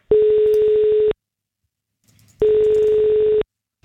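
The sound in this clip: Telephone tones of an outgoing call placed to a contest winner: two loud, even buzzing tones of about a second each, separated by a pause of just over a second.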